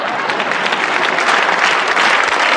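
Applause from an audience at a verse recitation: dense, steady clapping from many hands, loud and even throughout, with no voices.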